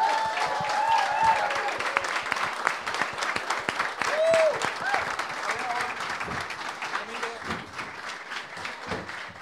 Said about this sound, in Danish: Er I ikke søde at give en stor hånd til Thomas Hartmann?